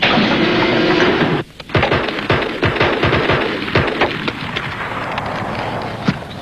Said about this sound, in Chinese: 你们俩干什么？一个不开枪，一个对天开枪。